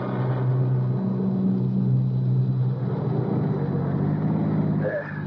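A car drives along a narrow country lane toward a cottage, its engine giving a steady, low rumbling drone at an even level that eases slightly toward the end.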